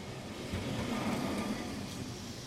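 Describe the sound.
Street ambience at a square in Lisbon, with passing traffic as a steady, low rumble of motor vehicles that swells slightly and stays fairly quiet throughout.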